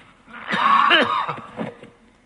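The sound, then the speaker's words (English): A cough from someone teaching on the Gospel of Mark, a hoarse, raspy burst lasting about half a second, then a shorter, fainter follow-up hack, without talk around it. “That little cough kept me up most of the night, so apologize for it.”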